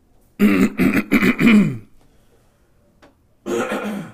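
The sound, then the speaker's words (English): A sick person clears phlegm from the throat and coughs, three days into an illness. Four rough, voiced, rasping bursts come in quick succession, then after a pause a longer one. “And this is just phlegm that I'm coughing up for my body because it's been 72 hours already.”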